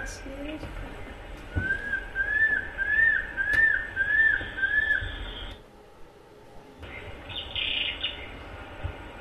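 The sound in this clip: Birds sing during a walk in a forest near a lodge. One repeats a quick series of bright, upslurred whistled notes for several seconds, alongside a higher sustained tone and soft background noise.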